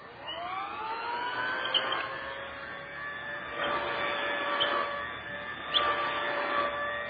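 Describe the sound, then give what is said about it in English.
An old-style vacuum sweeper runs over a rug on the floor above, moving back and forth. Its steady, harmonic motor whine rises in pitch at the start, then swells and eases at intervals. “An old-style vacuum sweeper running on the floor above.”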